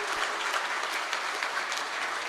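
Audience applause for a performer, steady dense clapping holding at an even level throughout with no break.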